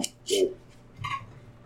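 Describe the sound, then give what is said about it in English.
Shaking a container, then popping its lid open: a short burst of rattling followed by a brief, sharp pop, with quiet gaps around them. “Let me see that lid. Let me shake it and pop it.”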